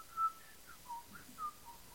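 A person whistles softly, a string of short, wavering notes at steady pitch that rise and dip slightly. The whistling is faint and there is no talk over it.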